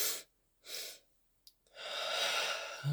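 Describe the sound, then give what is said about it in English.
Double-inhale breathwork during a guided meditation: two quick, breathy inhales separated by silence, then a longer, sustained airy breath that fades out. “So hold yourself in this moment, and I want you to breathe the double inhale”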